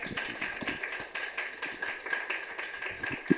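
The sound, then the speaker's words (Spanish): Audience applause at a feminist debate on internet governance as a speaker is introduced, a steady wash of many hands clapping throughout. “Un aplauso, por favor, para mi compañera.”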